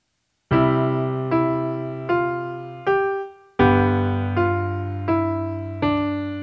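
A piano plays a simple melody over a G chord: eight struck notes with chords beneath, sounding at a steady, even pace, each ringing out and fading before the next.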